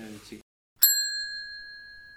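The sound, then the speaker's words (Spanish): A phone receiving an incoming call sounds a single bright electronic ding. It rings out clearly after a short burst of speech and fades slowly. “Me están llamando por teléfono.”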